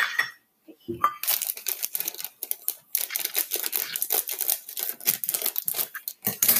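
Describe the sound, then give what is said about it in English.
Crinkling and rustling as a cup is filled with chocolate chips for cookie dough, with a steady run of small clicks and crackles and a few short pauses. “Alright, now you're going to stir in to the dry ingredients 1 cup of chocolate chips. Okay, so we're going to take 1 cup of chocolate chips. There's our cup.”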